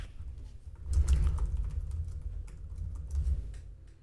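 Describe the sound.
Someone types a web search on a computer keyboard, a quiet run of rapid, uneven key clicks pattering continuously with no voices.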